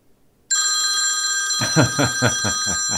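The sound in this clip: A telephone rings with a bright, sustained electronic tone that starts after half a second. About a second later, rhythmic low pulses join it and repeat steadily under the ring, with no talking.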